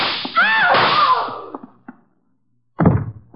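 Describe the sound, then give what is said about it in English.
A gunshot in a radio drama comes as one short, sharp, thudding crack near the end, following a longer stretch of softer, noisy sound. “Would somebody mind telling me why I don't fall down? Ooh. I've been shot.”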